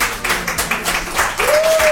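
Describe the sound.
Audience applause in a radio studio, greeting a show's astrology presenter; the clapping rises and falls in loose bursts with uneven loudness rather than a steady wash.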